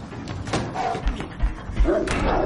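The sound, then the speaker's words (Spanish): A heavy wardrobe is shoved against a door in a child's bedroom during a tense thriller scene, giving a few dull thuds and knocks. “¡A mover esto! ¡Venga! Bloquean la puerta con un armario.”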